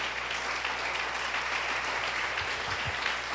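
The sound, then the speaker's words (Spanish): Sustained applause from an audience at a church couples' gathering: a dense, steady wash of clapping that runs evenly through the whole stretch without a break. “Vamos a darle un aplauso al Señor.”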